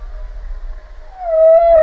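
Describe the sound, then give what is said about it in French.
A humpback whale call: a faint, steady tonal moan swells into a loud, sustained, slightly wavering tone that holds to the end. “La réponse de la baleine à bosse.”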